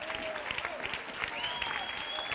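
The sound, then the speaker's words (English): A church audience claps their hands in praise, producing dense, steady applause with voices calling out over it. “You ought to clap your hands and give God praise.”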